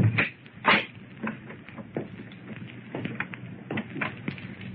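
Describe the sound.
A door being opened: a few sharp knocks and clicks, two louder ones near the start and then several softer taps and rattles over a low steady background.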